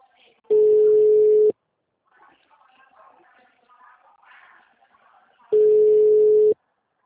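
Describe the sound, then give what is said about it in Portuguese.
Telephone ringback tone heard while calling someone again after an unanswered call. Two one-second bursts of a steady mid-pitched tone sound about four seconds apart, with faint background sound in the gap. “Não atendeu. Tá ligando de novo.”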